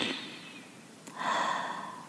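A deep inhale through the nose while smelling a freshly picked bluebell. Quiet at first, then a soft, breathy hiss swells and is held for about a second, alone with no voices.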